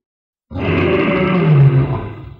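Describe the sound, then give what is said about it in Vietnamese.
A deep, powerful roar sound effect bursts in after a brief silence. It holds loud and steady for about two seconds, then tails off. “Khoảnh khắc đạp trên bậc thang thứ nhất, bên tai bỗng vang tiếng gầm truyền đi tám phương.”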